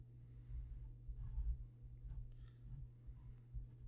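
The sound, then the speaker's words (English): Faint, steady scratching of a pen drawing on paper, sketching the Great Fairy Fountain, with a few soft strokes and scrapes over a constant low hum. “And I'm going to draw the Great Fairy Fountain.”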